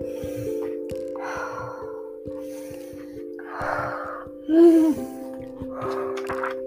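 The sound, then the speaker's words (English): Slow, deep breathing in and out during a calming exercise: several long, airy breaths, some with a faint wheezy edge, spaced evenly over a soft, steady background tone. “Then take three deep breaths. Breathe in slowly and breathe out slowly.”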